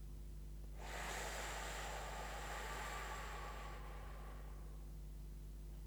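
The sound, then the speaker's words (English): A long, deep breath is drawn in, an airy rush lasting about three seconds, then held in near silence. The breath is soft and quiet, with no talk. “Let's take a deep breath. Hold and”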